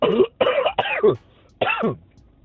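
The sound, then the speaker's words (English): A voice imitates coughing with a few rough, throaty hacks and throat-clearing bursts, loud and alone, with short gaps between them. “there's somebody in the background, you hear coughing, like,”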